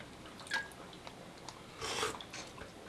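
Soft chewing and biting while food is tasted, faint and intermittent, with a few brief moist crunches standing out from a quiet background.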